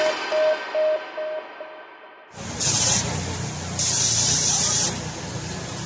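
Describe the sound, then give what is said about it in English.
Chemical disinfectant hissing as it is sprayed over workers in Uttar Pradesh, India. A few short steady beeps come first, then a loud, broad spray roars in with two stronger, sharper bursts. “That's the sound of workers being sprayed with a dangerous chemical disinfectant in Uttar Pradesh in India, a video circulating on social media causing outrage.”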